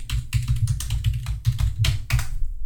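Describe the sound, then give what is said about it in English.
Typing on a computer keyboard: many quick, irregular key clicks with soft low thumps, a steady busy clatter that stops just before the end, with no voices. “it's like a blast from the past, hearing all that typing.”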